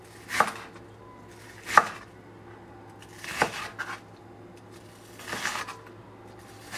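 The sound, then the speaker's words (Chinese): A knife chopping onion into thin strips on a board. A few sharp, sparse cuts come with uneven pauses between them, and some strokes land in quick pairs. “好，我现在把洋葱呢切成呃细条状，接下来我们转边，再下刀切一次，”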